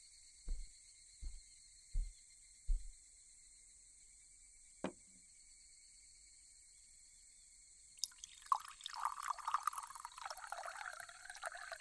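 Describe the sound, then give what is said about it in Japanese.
Tea poured into a cup: a few soft, isolated drips, then after a pause a steady, faint trickling pour that continues to the end, over a quiet high-pitched hum. “お茶とお団子持ってきましたよ。今入れますね。”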